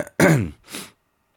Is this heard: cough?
yes